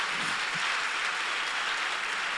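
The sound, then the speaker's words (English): A church audience clapping their hands during a service, a loud, dense and unbroken wash of many hands that holds an even level throughout. “Keep clapping. That hand clap is people clapping for you.”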